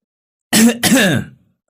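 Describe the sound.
An older woman clears her throat with a sharp cough behind a group of household maids, two short harsh bursts close together, loud and alone, then silence.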